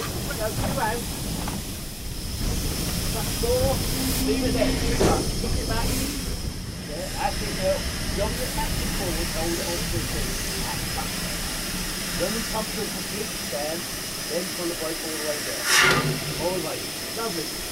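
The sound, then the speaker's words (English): A steam train slows for the points on its way into Ropley, a steady hiss of steam running throughout over a low rumble, with scattered clanks and a brief sharp burst near the end. “After a relatively speedy run up from Alford, we're just coming into Ropley. As you can hear, we slowed down for the points.”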